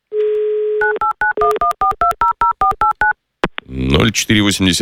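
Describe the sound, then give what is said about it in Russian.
A telephone number with a 911 prefix is dialed: a steady dial tone, then a quick run of about a dozen short touch-tone beeps, a click, and a voice speaking at the end. “Этот номер мы набрали, префикс 911.”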